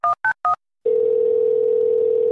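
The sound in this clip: A telephone dial tone sounds while a call is placed. Three short keypad beeps come first, then a brief silence, then a steady, continuous tone that holds to the end.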